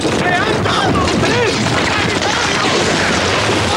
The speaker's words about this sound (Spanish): Se intensifica la lluvia de fuego.